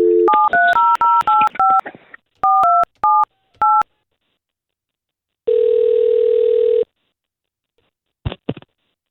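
Telephone touch-tone keypad beeps dial a call: a quick run of short paired tones, a brief pause, then a few more. A longer steady ringing tone follows, then a couple of short clicks near the end.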